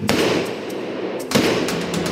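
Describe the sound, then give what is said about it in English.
Gunshots from a .357 Magnum revolver: two sharp, loud bangs about a second apart over a dense, noisy background. “This is a 357 Magnum. This is a heavy gun”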